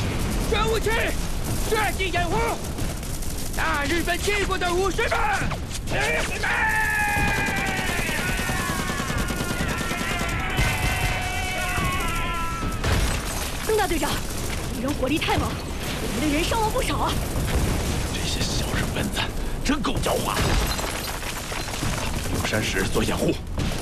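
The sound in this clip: Dense, continuous gunfire from a battle scene against Japanese troops on rocky hillsides, a steady loud rattle that fills the whole clip, with shouting voices heard over it.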